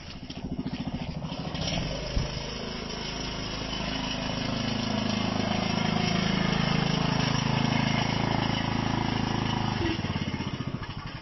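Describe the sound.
Steady engine drone of a ride-on lawn mower running, a continuous low chugging rumble with a broad noisy hiss on top, holding an even level that swells slightly through the middle before easing off near the end.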